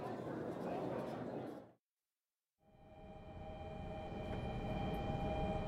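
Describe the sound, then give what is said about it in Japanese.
A train pulling into a station platform: a low, broad rumble with a steady whine, cut by a brief silent gap, then the rumble building again louder. “一番線に電車が参ります。線の内側でお待ちください。”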